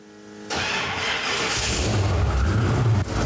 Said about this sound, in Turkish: Motora ısınması için biraz zaman veriyorum.